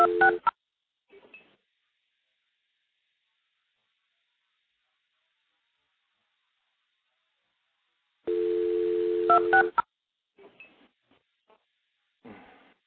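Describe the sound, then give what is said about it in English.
Multi-frequency tones dialing 2602 into stacked telephone trunks: a brief tone burst, then a long silence, then a sustained steady tone followed by a quick run of short tone pips, with a few faint clicks afterward. “It's actually MFing 2602 into the trunks to pick up the next one.”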